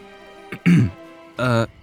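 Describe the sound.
A person clears their throat with a short, rough rasping burst, followed by a second, more voiced, hum-like clearing. Both are loud against an otherwise quiet background.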